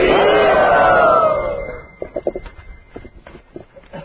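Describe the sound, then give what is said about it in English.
A crowd loudly shouts a welcome in unison at a yatra. The sustained, full-throated cry lasts under two seconds, then gives way to quieter, scattered voices. “Let us welcome Vineet Narayan Prabhu to our yatra by loudly saying.”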